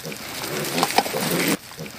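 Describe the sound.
Juema pigs grunting and snuffling as they eat grass on a free-range farm. The rough, noisy feeding sound is steady, with a few sharper grunts, and drops off abruptly near the end.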